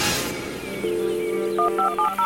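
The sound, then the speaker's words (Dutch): Telephone dialling: a steady dial tone hums first, then a few short, bright keypad beeps follow in quick succession, each a different pitch. “En in plaats van dat hij de poort open doet en je naar het voorhuis leidt, belt hij Joshua.”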